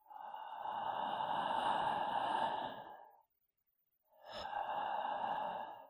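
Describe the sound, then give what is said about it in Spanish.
Slow, deep breaths from a voice-lowering exercise: two long, breathy airflow sounds, the first drawn out over about three seconds, then a brief silence before the second begins, heard alone. “El expirar e inspirar aire hace que esas cuerdas se queden más secas y entonces puedes conseguir bajar el tono de voz.”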